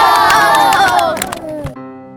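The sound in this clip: A crowd claps and cheers, with dense shouting voices and sharp, rapid hand claps that break off abruptly near the end, leaving a quieter tone.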